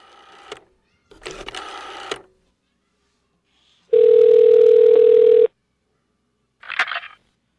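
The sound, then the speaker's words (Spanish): A telephone is redialed. A click and a rustling, clattering burst of handling come first, then a steady, single-pitched dial tone lasts about one and a half seconds, and a short noisy blip follows. “Volvió a marcar y, para su sorpresa, contestó la misma persona.”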